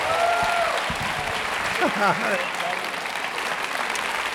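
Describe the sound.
An audience at Cedar Valley Church applauds to welcome a speaker: dense, sustained clapping that holds steady throughout, with voices heard over it.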